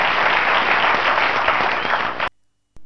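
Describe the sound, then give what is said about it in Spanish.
Applause from an audience, a dense, loud wash of clapping that holds steady for about two seconds and then cuts off abruptly, with a short burst returning at the very end. “Un aplauso, por favor.”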